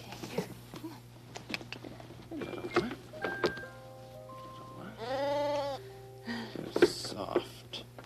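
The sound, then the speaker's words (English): Month-old lambs bleat in short, wavering cries, with one longer, louder bleat standing out among fainter calls, and voices talking alongside. “Very active, these lambs”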